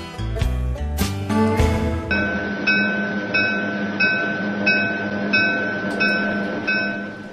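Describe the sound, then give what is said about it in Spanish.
A train runs on rails with a regular, rapidly repeating clatter and a steady high whine, preceded by a couple of seconds of loud musical notes. “Nos encontramos en el último tren.”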